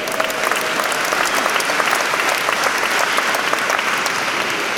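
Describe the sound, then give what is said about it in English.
An audience applauds the senior editor and the senior audio engineer with loud, dense clapping. The applause is steady and continuous for the whole stretch, with no voices above it. “I want to just introduce briefly Banning Air, who's our senior editor and producer, and also Michael Jones, who's our senior audio engineer, who makes us all sound so good. Let's give it up for these gentlemen.”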